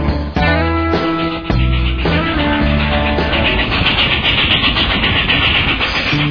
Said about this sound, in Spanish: El tren está llegando.